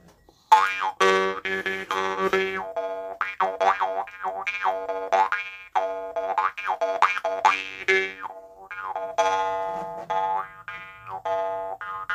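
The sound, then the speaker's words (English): A jaw harp being played gives a twangy, buzzing tone with sweeping wah-like overtones, a steady stream of rhythmic plucked notes rising and falling in timbre, heard alone without any talk. “You get your jaw harp, and you can play it.”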